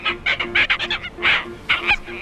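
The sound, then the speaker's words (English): Seabirds calling in a colony of red-tailed tropicbirds, masked boobies and noddies: many loud, harsh, honking calls in rapid, overlapping bursts, one after another without pause. “It's noisy 24/7. There's always something going on. You've got the diurnal species calling in the daytime, red-tailed tropic birds,”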